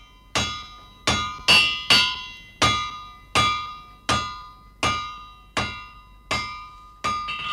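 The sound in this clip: A blacksmith hammers at the forge with twelve loud, ringing metallic blows at a steady, slightly uneven pace. Each strike is a sharp clang with a bright ring that decays before the next.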